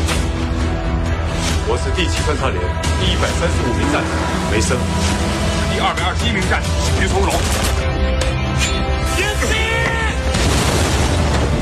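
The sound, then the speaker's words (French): Booms and explosions from an action movie trailer, heavy impacts buried in a loud, dense and unbroken wall of layered sound that stays intense from start to finish. “OK, ça explose, il y a de la tension. C'est bon, c'est tous les bons ingrédients d'un film d'action.”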